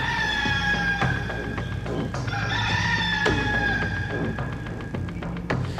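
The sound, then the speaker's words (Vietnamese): A startled rooster crows loudly at night in a long, ringing call that is drawn out and rich in harmonics, with some clucking and rustle beneath it. “Nó ưỡn cái cổ lên, rướng người rồi cất lên một tiếng gáy vang trời động đất.”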